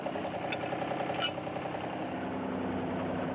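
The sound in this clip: A wheel loader's engine idles in a steady, even rumble that holds unchanged from start to end, with no voices over it.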